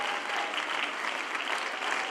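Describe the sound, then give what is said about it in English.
An audience claps during a lively sermon, producing a dense, steady patter of hands. It stays at a constant level throughout the short stretch. “Oh, somebody clap your hands.”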